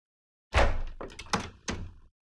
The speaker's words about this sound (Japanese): 扉開けてくれるんですね。お願いします。